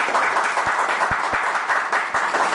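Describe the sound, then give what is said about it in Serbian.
An audience at a formal event gives a government minister dense, steady applause, with many overlapping claps at an even level throughout. “Ja molim jedan aplauz.”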